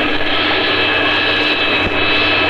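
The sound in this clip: A turbine engine is started and run up, giving a loud, steady roar with a high whine that holds almost constant throughout.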